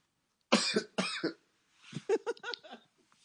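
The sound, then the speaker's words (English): A person coughs twice, sharp and loud in quick succession, then gives a rapid run of softer, shorter coughs or throat clearing, with no talk. “Just you and your cough.”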